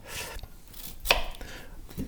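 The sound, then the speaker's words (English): A knife chopping onion on a cutting board: a few faint, sharp taps spaced irregularly, with light rustle between strikes. “I could listen to you cut onions all day long.”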